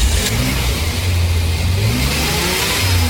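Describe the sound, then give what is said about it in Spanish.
A car engine revving on a street, a loud continuous roar whose low note swells and rises in short revs, heard alone without talk. “Estamos en plena calle haciendo la nota a un excelente motor a quien ya preguntamos, ¿cómo se siente?”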